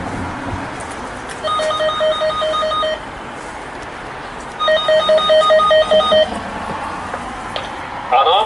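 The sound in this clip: A telephone ringback tone sounds while a call is being placed, with two separate bursts of bright, warbling electronic ringing. Each burst lasts over a second, with a steady low background hum between them.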